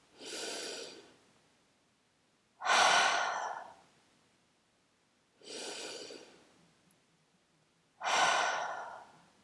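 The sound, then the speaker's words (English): Deep breathing in two full cycles: each starts with a drawn-in inhale through the nose, then an open-mouth exhale. The four breaths are evenly spaced by quiet gaps, and the exhales are louder. “Take a deep inhale through your nose. Open mouth, exhale. Two more times.”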